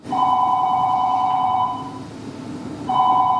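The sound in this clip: A telephone rings with a trilling electronic tone, two rings separated by a short pause, over a low background hiss.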